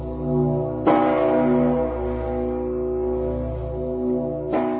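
A large peace bell rings with two deep, heavy strikes, one near the start and one near the end, each leaving a long, humming resonance that fills the gap between them, with no voices.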